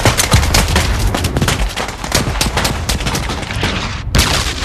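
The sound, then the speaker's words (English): Heavy gunfire crackles as American soldiers attack a German dugout during a WWII beach assault. Loud overlapping shots and bursts pour out almost nonstop, pausing only briefly near the end. “While some of the GIs capture prisoners, others race left, where a dugout is under attack.”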